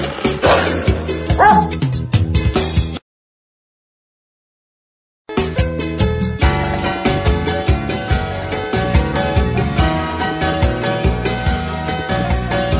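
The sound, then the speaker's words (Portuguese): A dog barks and yips, mixed into a music track with a heavy, pounding beat. The music drops out briefly to silence and then returns. “E o cachorro? Meu cachorro me sorriu latindo.”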